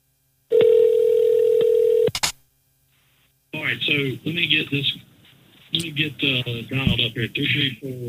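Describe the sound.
A steady telephone dial tone hums for about a second and a half as a phone line is dialed up on a live radio show. A short tone cuts it off, then people talk.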